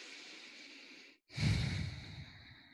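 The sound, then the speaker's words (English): A person takes a deep breath in a steady, airy draw, pauses for a moment, then lets it out as a fuller, louder sighing exhale that tails off softly. “I just took a deep breath with that, because it's so true.”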